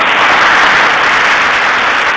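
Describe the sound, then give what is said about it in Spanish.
Audience applause breaks out during a punk radio show, a dense steady wash of clapping that stays loud and even for about two seconds with no voices over it. “La audiencia te aplaude.”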